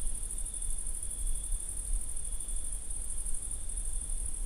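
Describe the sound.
Crickets chirp in a continuous high-pitched trill that stays steady and fairly faint throughout, with no talking.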